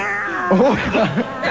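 A female cat meows a few times in wavering, rising and falling cries, moderately loud over a steady background hiss.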